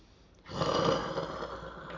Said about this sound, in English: So the little breath in and the longer out.